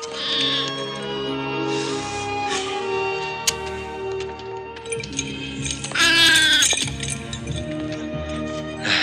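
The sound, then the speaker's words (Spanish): A sheep bleats as it strays from the flock and climbs a mountainside. A loud, quavering bleat stands out near the end over a steady tonal background, with fainter bleats earlier. “Una oveja se separa del rebaño y sube monte arriba.”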